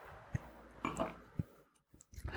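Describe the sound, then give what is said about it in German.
A quiet sip and swallow of a drink: a few soft, scattered mouth clicks and gulps with short pauses between them, and no talking. “Und warte, ich muss, ich muss einen Schluck trinken, mein Hals.”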